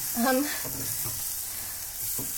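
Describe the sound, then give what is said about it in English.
Vegetables sizzling as they are tossed in butter in a pan: a steady, bright frying hiss with a soft stirring scrape, fairly even in loudness throughout. “So, I almost don't even really need any heat on the butter, because, like, my veggies are so toasty. I'm just gonna toss it around in the butter.”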